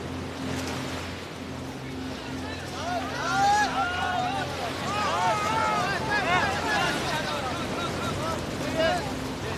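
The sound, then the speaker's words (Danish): A babble of people's voices rises from a large grey rubber boat nearing the coast. The overlapping calls sit over a steady wash of surf and wind noise that runs through the whole stretch. “Båden den er nu på vej ind langs ind til kysten. Der er sådan en ordentlig skrænt ned, så det er faktisk lidt svært at komme ned. Men jeg hopper ned. Nu kan man høre dem ud på båden.”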